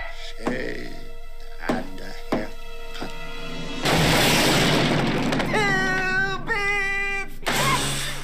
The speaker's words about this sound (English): Blows through that wall like the Kool-Aid man.